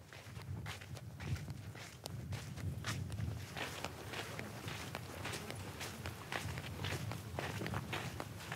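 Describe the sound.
Camels walking back to the tent in Mauritania after foraging for food, their footsteps a steady run of many soft, shuffling thuds over a continuous low rumble.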